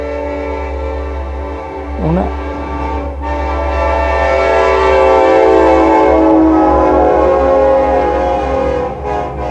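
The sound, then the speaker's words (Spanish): A train passing by: a loud, continuous rumble with sustained horn-like tones layered over it for the whole stretch, swelling slightly in the middle. “Bueno, está pasando un tren.”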